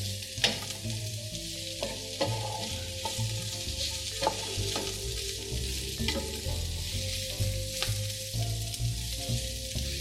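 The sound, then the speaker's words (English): Onions and garlic sizzle in a hot pan, giving a steady, dense crackle of frying with occasional sharper pops and stirring clatter, fairly soft and continuous throughout, with no talking. “And just listen to the sound, this sizzling, it's just wonderful.”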